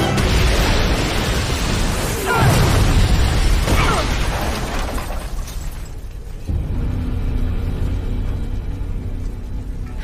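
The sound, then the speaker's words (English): A factory exploding: dense, roaring blasts with a couple of heavy booming bursts early on, then the din eases into a lower, rumbling roar that carries on to the end. “swinging to safety as the whole factory explodes behind them”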